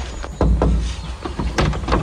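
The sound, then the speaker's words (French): A door is knocked on and opened, heard as a few sharp clattering knocks and thuds with some rustle between them and no talk. “Si, j'ai frappé. Ah, j'ai pas défoncé la porte, je vous l'accorde.”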